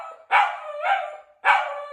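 Dogs bark and howl. A few loud, harsh barks burst out over a sustained mid-pitched howling tone that continues underneath them.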